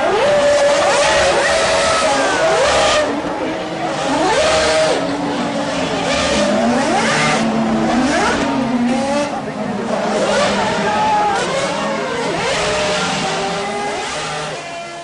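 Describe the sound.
Formula One race cars roar on the track, their high, whining engine notes sweeping up and down as cars pass one after another in a loud, continuous stream.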